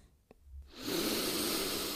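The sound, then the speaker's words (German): A deep inhale draws in as a long, steady, breathy rush that lasts well over a second, preceded by a faint brief sniff-like sound. “tiefes Einatmen”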